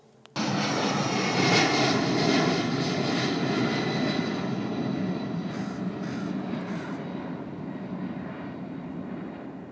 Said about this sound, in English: That was just Southwest taking off, I guess. Looks like it.